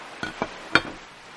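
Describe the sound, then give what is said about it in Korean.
Tiramisu plates set down one after another on a restaurant table by a waiter, giving three short, faint clinks of crockery spaced apart, with quiet room noise between them. “종업원이 다가와 어머니와 내 앞에 차례로 티라미수 접시를 내려놓으며 말했다.”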